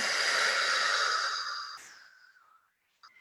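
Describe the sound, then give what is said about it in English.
A long audible exhale during a yoga stretch, a steady breathy rush that slowly tapers off into near silence, followed by a brief faint sound at the very end. “So you inhale up. And then, and stretch, stretch, stretch, stretch. And then exhale down.”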